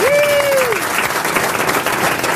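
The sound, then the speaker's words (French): A studio audience applauds and cheers a caller on a radio game show, dense clapping held at an even level throughout, opening with a brief whistle-like tone. “À mes côtés, j'ai Michel Boujna, les grosses têtes, le public qui vous acclame déjà”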